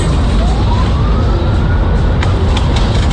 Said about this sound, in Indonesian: Efek truk tadi di depan Riverside.